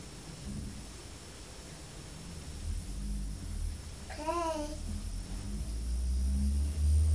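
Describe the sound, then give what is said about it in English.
Low engine rumble of a blue car driving off, a broad, steady wash of noise whose deep rumble swells toward the end, with a brief bird chirp cutting through midway. “That's the blue car driving off. And the postman's getting back in his van.”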